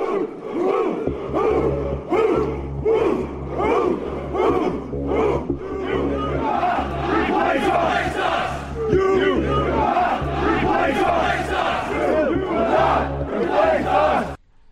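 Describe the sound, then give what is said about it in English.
Far-right protesters chant in unison at a rally in Charlottesville. The crowd's voices rise and fall in a loud, steady rhythmic chant over a constant low hum, continuing almost without pause to the end. “Yes, that was audio footage of far-right protesters taking part in the Unite the Right rally in Charlottesville.”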